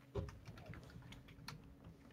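Faint typing on a computer keyboard, an irregular run of soft key clicks with one heavier tap near the start, steady and quiet throughout.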